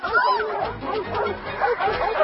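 A dog in a dog pen barks and yips over and over in a busy, continuous stretch of loud, overlapping yaps.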